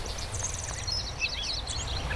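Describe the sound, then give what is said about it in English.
A gray catbird sings a stream of varied, high, chirpy phrases, each fairly short and quickly followed by the next. The song is faint and sits over a steady low rumble. “the gray catbird's on top of that. So let's just listen to the song for a minute.”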